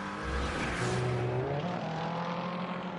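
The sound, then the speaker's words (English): BMW and Corvette race cars battling for the lead as they climb a hill on a racing circuit: a continuous, loud engine roar whose pitch shifts as they drive, with no talking. “BMW on Corvette action.”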